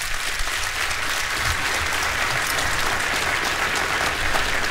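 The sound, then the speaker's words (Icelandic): An audience applauds a performer. The clapping is steady and dense, holding at an even level throughout with no one talking over it. “Þorsteinn Einarsson, gefið honum gott klapp.”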